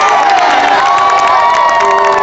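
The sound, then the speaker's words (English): Fans cheer loudly at a women's college soccer game, a dense, sustained crowd roar with high shouts and whoops running without a break throughout. “The fans filed in and groaned at missed opportunities, were annoyed by seemingly bad calls, and cheered when the Lady Eagles scored.”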